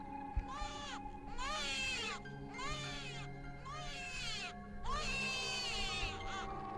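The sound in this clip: A weak baby cries, lying on a small raft in cold water, in four drawn-out wavering wails separated by short pauses, all quiet and high-pitched.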